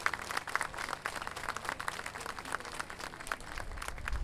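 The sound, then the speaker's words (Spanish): Audience applause at an international folk poets' gathering in a mountain town in Chile: dense, steady clapping from a crowd, moderately loud and sustained throughout without pauses. “Sí, aplaudan por favor y denle un gran aplauso a las delegaciones que nos acompañan de todos los países.”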